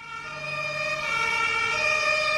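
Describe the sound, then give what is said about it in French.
An emergency vehicle siren sets off responding to a call at a housing estate in Bobigny, giving a loud, steady, harmonic wail that holds for the whole stretch with no voices. “Un véhicule de secours se met immédiatement en route.”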